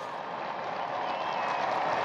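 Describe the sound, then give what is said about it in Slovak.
Faint applause from the faithful and pilgrims gathered in the square, greeting the Pope at his window during the Regina Caeli prayer. A soft, even wash of many hands clapping runs without pause and swells slightly toward the end. “Ozýva sa aplauz z námestia od veriacich a pútnikov smerom k svätému Otcovi.”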